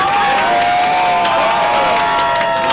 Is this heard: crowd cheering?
yes